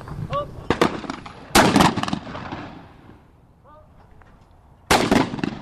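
Gunshots at a gun club shooting range at Lake Merced: a few sharp, loud cracks with short ringing tails, two close together early on, then a quiet stretch before another.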